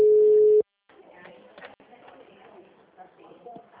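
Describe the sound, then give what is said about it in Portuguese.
A steady telephone tone on a call to a service line that no one answers. The single tone sounds briefly and loudly, then cuts off, followed by people talking. “Tô tentando ligar pra FGTS, mas ninguém atende.”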